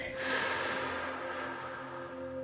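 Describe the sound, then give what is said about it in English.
A long, deep breath in during a guided relaxation exercise: a soft, airy rush of inhaled air that swells and then slowly fades, over quiet, steady sustained tones. “gently soften your eyes and take a deep breath in”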